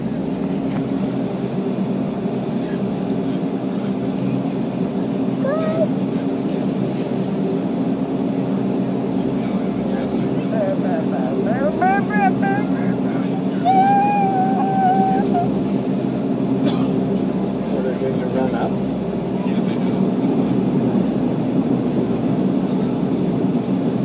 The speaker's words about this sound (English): Can you even see the propeller, or is it spinning too fast? It's spinning too fast. You can't see it.